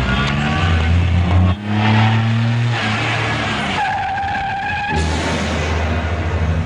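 A car drives off with a loud roaring engine and skidding tires. Its engine pitch shifts as it accelerates over broad, steady road and tire noise.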